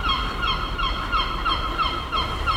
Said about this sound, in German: Was man hier hört, sind die Möwen im Hintergrund.